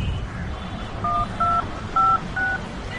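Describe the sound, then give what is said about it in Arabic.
Telephone keypad tones as a number is dialed to place a call: four steady, evenly spaced electronic beeps, each a short two-tone chirp, rising clearly above a low background hum. “اسمحي لي هعمل تليفون بس لاخويا”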